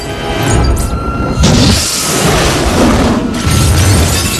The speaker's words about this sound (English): It engulfs them all in a fireball which blows out from the upper windows, destroying everything in its path.